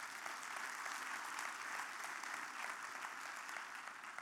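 Applause from an audience at a Christian worship service: dense, steady clapping that holds at an even, fairly loud level for the whole four seconds without a clear peak or fade.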